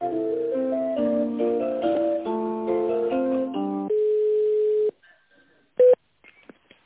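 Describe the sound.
Electronic telephone hold melody plays while a call is transferred to a sales department, a thin, tinny tune of quick notes ending on one held tone, followed by a pause and a short, sharp beep.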